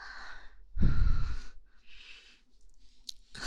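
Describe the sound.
Soft, airy exhales from a person: a few quiet breaths, one stronger and rougher puff near the start, with nothing else heard.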